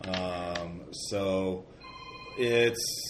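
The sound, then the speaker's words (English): A mobile phone rings with a bright, melodic ringtone: a few short tonal phrases in quick succession, fairly loud and clear, with no talk over it. “Excuse me, that was my phone. Let me quiet that.”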